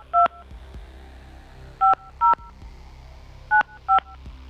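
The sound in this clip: Telephone keypad dialing tones sound as five short, crisp two-tone beeps: one alone, then two close pairs, over a quiet low hum.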